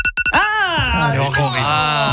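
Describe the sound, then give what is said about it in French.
A phone ringtone used as a wake-up alarm, styled like a TV news jingle: loud synthetic tones open with quick clicks, then sweep upward into a sustained, harmonically rich chord. “je vais t'annoncer que ma sonnerie, c'est ça.”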